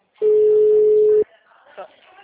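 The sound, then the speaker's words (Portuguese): A telephone ringing tone while a call is being placed: one steady, unbroken mid-pitched tone about a second long that stops abruptly, followed by quiet voices. “Vai ligar. Mas já tá chamando, só.”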